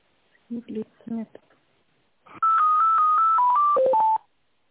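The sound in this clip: Touch-tone telephone dialing while a call is being transferred: a voice speaks briefly, then after a short pause a loud run of steady beeps plays in quick succession, each at a different pitch.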